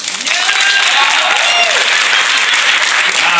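Audience clapping fills the whole stretch as a loud, dense, continuous wash of applause, steady from start to finish.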